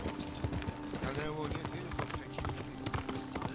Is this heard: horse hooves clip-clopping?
yes